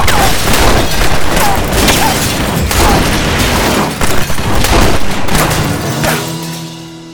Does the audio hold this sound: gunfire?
yes